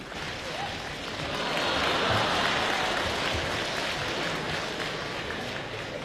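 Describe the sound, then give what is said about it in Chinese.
Audience applause at a youth crosstalk comedy show held for May Fourth Youth Day, greeting two performers as they take the stage: a dense, steady wash of clapping that swells near two seconds and holds strong to the end. “谢谢您的掌声鼓励。”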